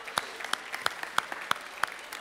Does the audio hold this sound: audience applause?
yes